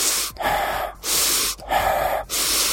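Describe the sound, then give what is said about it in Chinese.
Inhaling through mouth and nose together, shown as a breathing technique: several loud, airy breaths in a steady rhythm, split by brief pauses. “但系其实系应该口鼻一齐吸， 口鼻一齐吸，”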